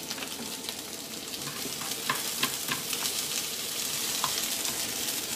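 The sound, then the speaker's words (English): Onions frying in a pan on a stove: a steady, even sizzle with scattered small crackles and pops running throughout, at moderate loudness with no talk. “onions on stove. Just let them go away.”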